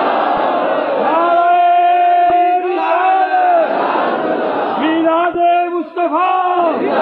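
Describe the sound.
A crowd at a religious gathering with naat recitation roars back in response to the Nara-e-Takbeer call. The massed voices shout together in loud, sustained waves, rising and falling across several repeated responses.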